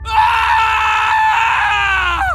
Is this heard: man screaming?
yes